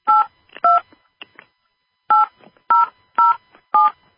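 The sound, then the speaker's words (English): Telephone keypad tones entering a subscriber PIN on a conference-call line: six clear two-tone beeps, two quick ones, then a pause and four more at an even pace, each short and loud. “Please enter your subscriber PIN followed by the pound sign.”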